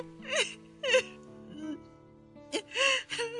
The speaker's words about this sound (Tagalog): Love, ano ba kasing problema? Bakit iyak ka ng iyak?